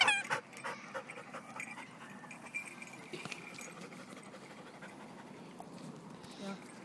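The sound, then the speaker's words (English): A dog pants rapidly and heavily in a quick, steady rhythm of short breaths that runs the whole time, with a person's voice coming in at moments. “You're hot. You pant a lot more than Bailey does.”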